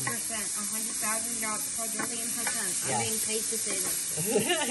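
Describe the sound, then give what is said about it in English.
Ham, leeks, bacon and garlic sizzle in a pan with a steady, even hiss of frying that runs throughout while people talk over it. “All right, we've got the ham and the leeks in with the bacon. And we put some good garlic in there, too.”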